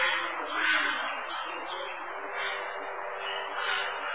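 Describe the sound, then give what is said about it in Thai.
Birds calling in temple grounds make a dense, steady chorus of overlapping chirps and calls, holding an even level throughout with no talk. “ลองทดลองฟังวัดหลวงพ่อมีนกเยอะช่วยฟังแล้วลองพยายามนับว่ามีนกกี่ชนิด”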